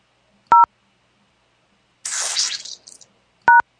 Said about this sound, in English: Please record your voice message at the tone.